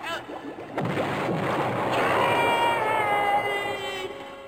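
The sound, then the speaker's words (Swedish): Hissing, bubbling rush of a pot of brewed potion, made from weed oil and other odd ingredients, boiling over in a cartoon kitchen. It is steady and fairly loud throughout, with faint wavering tones gliding downward through the noise. “Sådär, och nu ska jag bara... Tusan, det kokar över!”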